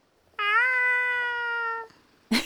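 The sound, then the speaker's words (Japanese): A cat gives one long, clear meow that holds a fairly steady pitch for over a second, then stops, with quiet background otherwise. “ほら、にゃーって。この猫さんも、お姉さんのことが好きなんやて。”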